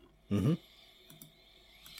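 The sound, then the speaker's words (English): Faint, sharp clicks of a computer mouse at a desk: a quick pair of light ticks, then another few near the end. They are quiet against a low background hum, after a short, louder burst of sound near the start. “As you can probably hear from the click of the mouse, I'm looking at that right now.”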